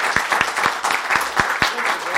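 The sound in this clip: Audience applause welcoming a speaker at the Pratt in Baltimore: steady, loud clapping from many hands with crisp individual claps standing out.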